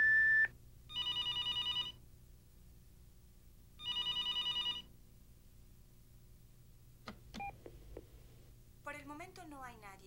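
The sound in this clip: A telephone rings twice in bursts of bright trilling bells, then after a pause come a few brief electronic blips and a warbling answering machine tone.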